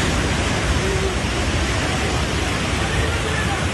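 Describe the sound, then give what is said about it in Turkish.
Floodwater roars past after a downpour overflowed the Hacı Osman creek in Havza, Samsun, submerging town squares and neighbourhoods. The rushing sounds as a dense, unbroken, loud roar from start to finish. “Havzada sağanak sonrası taşan Hacı Osman Deresi ve Ters Akan Dereleri, Cumhuriyet Meydanı, Çay ve Bahçelievler mahallelerini su altında bıraktı. Selin önüne kattığını sürüklediği anlar görüntülere yansıdı.”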